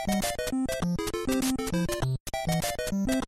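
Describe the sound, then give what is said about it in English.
The NES Super Mario Bros. theme in a fuller arrangement: square-wave melody and triangle bass joined by hissy noise-channel percussion. The dense, driving chiptune breaks off briefly once before resuming. “And then the noise is kind of the last piece of that percussion.”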